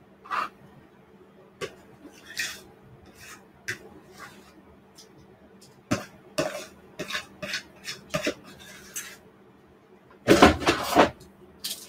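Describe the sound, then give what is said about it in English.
Pumpkin blondie batter is scraped into a baking pan and spread out with a utensil: many short scrapes and light taps against the pan, mostly faint, then a louder, denser burst of scraping near the end. “I'm just gonna place this into my baking pan and just spread it out in an even layer.”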